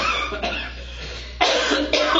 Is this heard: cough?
yes